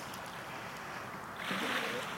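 Water laps at a lake shore in a soft, continuous wash that swells louder after about a second and a half, with a light steady hiss underneath.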